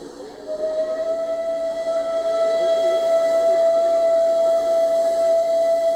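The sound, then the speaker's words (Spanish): A train arrives with a steady, sustained whistle tone over a continuous rumbling hiss. The sound grows slightly louder and holds to the end. “Me manda un tren, es esto, un tren. ¿Qué me manda un tren? Bueno, ahora vamos a tener que este video de qué se trata. La llegada de un tren.”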